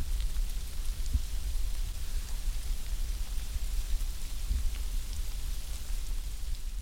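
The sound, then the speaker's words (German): Thousands of ants moving, recorded close up, make a soft, continuous fine crackle and hiss like light rain over a faint low rumble. “Das Rascheln der Ameisen tönt wie das Rauschen von einem ganz feinen Regen.”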